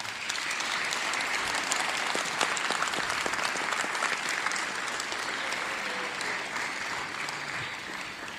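A church audience applauds to welcome people walking to the front during a morning service. The clapping is dense, steady and sustained throughout, with no speech over it.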